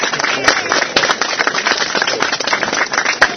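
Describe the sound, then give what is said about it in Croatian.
A crowd applauds a prince (knjaz) at a religious feast gathering in Crnica, producing loud, dense, continuous clapping with sharp individual claps scattered through the steady roar. “Svi da jedan aplauz našem knjazu.”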